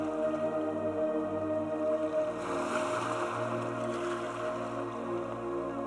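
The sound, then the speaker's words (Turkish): Ocean waves wash in a continuous, steady roar that swells slightly midway, under a sustained low, droning tonal hum. No voices are heard. “Dalgaların sesinin sizi rahatlatmasına izin verin.”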